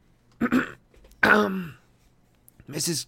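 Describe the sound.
A person coughs and clears the throat in three rough, voiced bursts spread over a few seconds, the middle one the longest, with quiet gaps between them.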